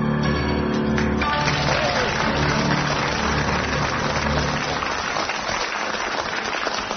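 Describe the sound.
A studio audience applauding on a comedy panel game: steady, dense clapping that carries on at an even level throughout, softening slightly near the end.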